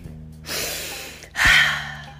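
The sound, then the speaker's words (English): A deep breath taken by one person: two long, breathy rushes of air, the second louder and harsher than the first, heard alone without talk. “Hold on, wait a minute, let me take a deep breath.”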